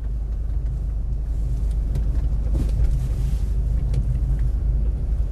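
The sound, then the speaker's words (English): Road noise inside a Mini car as it is being parked: a steady, dull low rumble with faint bumps and a soft hiss, continuous and without voices. “you can tell when I'm parking, the road noise is getting quiet. The Mini's not so bumpy.”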